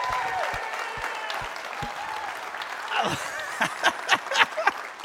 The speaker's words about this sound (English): So guys, look, would you put your hands together, and would you welcome one of your very own?